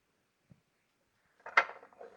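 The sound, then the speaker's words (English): Firm strawberries laid on the grid of an onion dicer are pushed through it. A faint click comes first, then a short burst of crunchy, squishy pressing sounds, all fairly quiet. “Right through the old onion dicer. Wow, very nice. Just laying the strawberries on there.”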